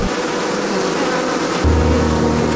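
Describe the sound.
Honey bees buzzing at a hive, a dense, steady drone that fills the whole clip and grows a little louder and deeper in the last second.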